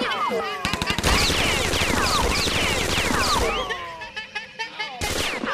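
Gunfire in rapid, dense bursts: a loud sustained volley of shots for a few seconds, then scattered sharper cracks that trail off before one last loud burst.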